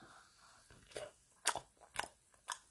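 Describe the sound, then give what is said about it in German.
A banana peel snaps and cracks as the banana is opened: a few faint, sharp crunching snaps come at fairly even intervals, with soft rustling in between. “Dann mache ich mal meine Banane auf mit euch. Mache ich mal die Banane mit euch gemeinsam auf. Bam. Oh, der Knackser. Oh, da hat die sich schön geknackst.”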